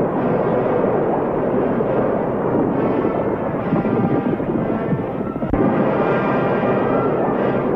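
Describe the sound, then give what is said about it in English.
Caverns exploding from underground volcano eruptions: a dense, continuous roaring rumble of blasts and debris, loud and unbroken, with one sharp thump standing out near the end. “Caverns explode violently as underground volcanoes unleash their tremendous fury.”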